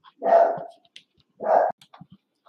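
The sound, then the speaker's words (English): A dog adopted from a shelter, a protective female, barks twice in loud, rough bursts separated by about a second, followed by a few faint, short yips and snuffles. “Sorry about that. That was our dog who we adopted from the shelter.”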